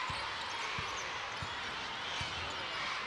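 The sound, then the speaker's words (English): A basketball is dribbled on a hardwood court during a women's college game: four low, evenly spaced bounces thump over a steady crowd murmur. “Rubio right to Gracie Hamby. Puts it on the floor. Comes back to the middle. Almost lost the dribble.”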